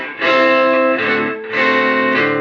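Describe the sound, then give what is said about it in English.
Electric guitar played through a Harvard Reverb amp on the neck pickup, giving a nasal, effected tone. Loud sustained strummed chords ring out with no talking, each shifting partway through. “So let's get back to this Harvard reverb here. That's on the neck. That is super nasally.”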